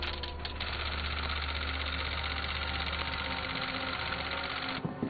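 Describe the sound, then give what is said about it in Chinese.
Rapid typewriter clatter as a police report is typed, a dense and steady mechanical rattle that runs without pause for nearly five seconds before stopping abruptly near the end. “巡长先生，已经打印完毕。”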